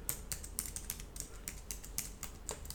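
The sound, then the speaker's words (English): Quiet, rapid clicking of a computer keyboard as a web address is typed, with many keystrokes in a fairly steady run and no voices. “So the web address I just typed in was”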